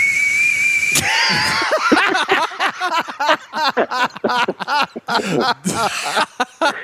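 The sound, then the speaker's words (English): Breathing out through the nose makes a steady, thin, high whistle lasting about a second, followed by people talking and chuckling. “Hey, breathe out your nose real quick.”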